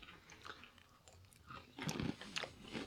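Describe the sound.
Biting and crunching on stale cereal: faint, dry crunches and chewing, growing denser and louder in the second half as several bites land in quick succession.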